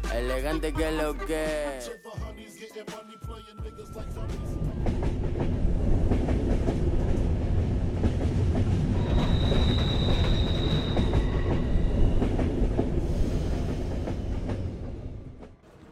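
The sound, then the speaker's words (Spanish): A train rolls into its last stop with a steady heavy rumble and rhythmic wheel clatter. A high metallic wheel squeal rises near the middle and the noise eases off at the end. A voice is heard briefly at the start. “Con lagañas en los ojos y un poco de resaca, el tren llega a su última parada y nos bajamos.”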